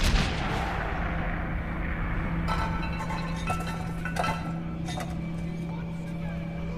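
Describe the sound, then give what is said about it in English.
A metal helmet rolls out along a corridor floor, giving a few sharp metallic clanks and rattles over a constant low hum. “A guard standing outside the prayer room flinches as a helmet rolls out into the corridor.”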